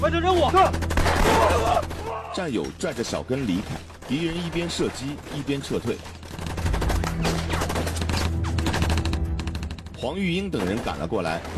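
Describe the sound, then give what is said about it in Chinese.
Gunfire from enemy soldiers shooting as they retreat in a wartime firefight, sharp cracks and bursts of shots scattered through loud shouting voices and dramatic background music. “战友拽着小根离开，敌人一边射击一边撤退。”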